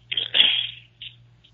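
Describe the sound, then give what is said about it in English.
Paper slips are torn up for a giveaway draw. A long, crackling rip is followed by two shorter tears, the last one faint, over a steady low hum. “Hold on, I'm getting ready to draw it out. Hold on, I'm still ripping.”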